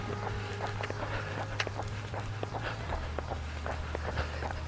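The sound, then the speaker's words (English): Running footsteps with shoes making an extra clicking and tapping sound, many quick sharp clicks in a steady stride over a constant low hum. “Seems to be a little extra click, clack, tap, tap in my run. And I don't know. But it's from, I think it's from my shoes.”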